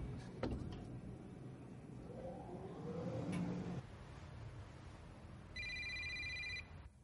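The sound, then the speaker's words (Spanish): A telephone rings in an office in a spy thriller scene, a single short electronic trill near the end over a faint, low background hum. “En una oficina, Yuri coge el teléfono.”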